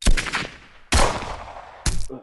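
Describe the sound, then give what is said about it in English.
Gunshots blast inside a home as a woman returns fire: three loud, sharp cracks, each followed by a short decaying rumble, spaced roughly a second apart. “She returned fire.”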